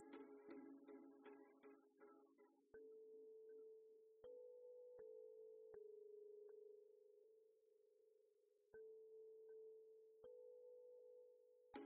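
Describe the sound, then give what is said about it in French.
Telephone tone during an incoming phone call: a steady, flat mid-pitched electronic tone broken by several sharp clicks. It follows a short burst of mixed sound at the start. “Ah, attends, attendez, coup de fil, je vais voir si c'est.”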